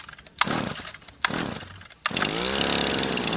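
String trimmer (weed whacker) trimming: a small engine revs in two short loud bursts, then a third rev holds as a sustained buzzing whine.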